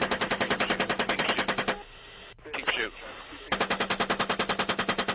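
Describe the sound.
Rapid machine-gun fire from a military helicopter attack comes in two sustained bursts of evenly spaced rounds. Between them is a stretch of radio voices.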